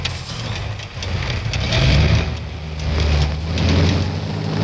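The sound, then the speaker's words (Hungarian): A car engine is run at full throttle with the car stuck in mud, giving a loud, low roar that swells and eases in a few surges under a broad hiss. “Na, vegye át a volán, majd én kiszállok. Ha szólok, akkor adjon teljes gáz. El kell jutnunk még ma Udinébe különben. Gáz neki, főhadnagy úr!”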